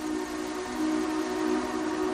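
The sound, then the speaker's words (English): An approaching train gives a steady, low droning rumble with a sustained tonal hum. It grows slightly louder after the first second and carries on without voices. “All right, the train's coming.”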